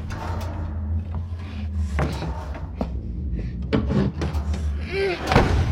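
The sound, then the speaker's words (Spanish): A door being pushed shut with a steel pipe, in a horror film scene: a few knocks and thumps of the door over a low rumbling background. “Toma un tubo de acero que se encuentra apoyado en la pared. Con el tubo empuja la puerta intentando cerrarla.”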